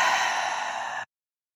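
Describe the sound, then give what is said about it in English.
A deep exhale during a breathing exercise: one steady, breathy rush of air that lasts about a second and then cuts off into silence. “hold, in through the nose, hold, exhale,”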